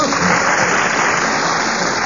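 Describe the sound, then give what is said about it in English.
Applause heard alone as a dense, even wash of clapping that stays loud and steady for about two seconds. “We've got more applause, so... It is.”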